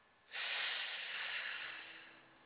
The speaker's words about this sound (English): Okay, let's inhale.